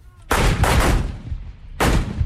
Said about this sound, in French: Canons pointés vers les montagnes de la frontière syrienne, des tirs d'artillerie pilonnent à quelques kilomètres les positions djihadistes.